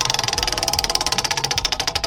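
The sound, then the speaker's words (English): A prize wheel spun during a call-in prize game gives rapid, evenly spaced ticking, a fast, steady rattle of clicks at a constant pace. “You want to spin the wheel? I do. And I will.”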